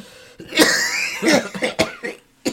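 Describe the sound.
Coughing and throat clearing from a person who has been breathing too fast: a few harsh, rasping coughs in uneven bursts, ending with a short, sharp cough.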